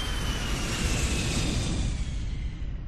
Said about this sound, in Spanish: El vuelo 1549 despegaba a las 3 y 25 de la tarde.